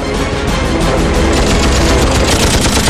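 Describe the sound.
Machine-gun fire from a P-51 fighter plane shooting at an enemy jet in aerial combat: a loud, dense, unbroken roar of rapid fire that stays steady and harsh throughout.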